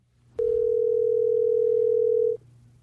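Telephone dial tone while placing a call: one steady, unbroken mid-pitched tone lasting about two seconds, alone over faint low hum.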